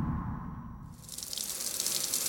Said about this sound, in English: Sahira is in a scrub room. Water gushes from a tap in front of her